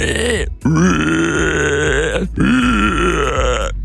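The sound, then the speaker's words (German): A person imitates a screaming wild boar with loud, harsh, strained squealing vocal bursts: three drawn-out cries separated by two brief breaks, rough and sustained. “Und uns ist zu Ohren gekommen, du kannst eine Wildsau. Eine schreiende Wildsau, ja.”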